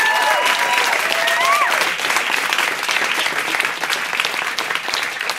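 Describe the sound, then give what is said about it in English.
A live studio audience in Studio 1A applauds two Texas singer-songwriters, a loud, dense, continuous wash of clapping that stays steady throughout. “And as you can hear, we have a live studio audience.”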